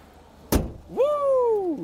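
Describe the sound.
The lid of an electric car being let go drops shut with one sharp, solid thump. A drawn-out tonal sound follows; it rises briefly, then slowly sinks in pitch.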